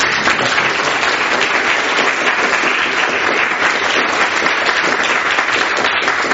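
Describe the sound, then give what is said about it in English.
Audience applause for student assistants during an on-stage prize event. Dense, uniform clapping continues at a steady, strong level for over six seconds without a break. “And also I would like to give an applause to our student assistants that helped so much.”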